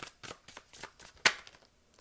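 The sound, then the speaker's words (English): Tarot cards are shuffled in quick, soft papery bursts, many of them in a rough rhythm. A sharper, louder snap midway stands out, and the sound stays faint overall. “Do you guys like the shuffling ASMR, or should I just cut it out?”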